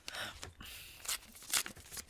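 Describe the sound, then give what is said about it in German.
Crinkly tearing and rustling of paper as an envelope is opened, coming in a few short, sharp bursts with quieter scraping between them. “ich schau mal in den anderen Umschlag”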